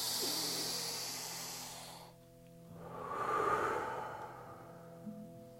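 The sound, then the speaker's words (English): Slow, deep breathing during a guided meditation: one long, airy breath in two soft hissing phases, quiet, over faint sustained musical tones. “Breathe with me.”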